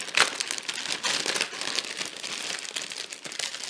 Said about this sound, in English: Let's see, I gotta tear open the bag to get the instructions out.